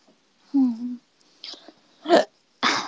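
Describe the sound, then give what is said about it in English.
A single human hiccup, a short, voiced, squeaky gulp, followed by a few quiet breathy puffs and exhales. “Oh, that was a hiccup, excuse me.”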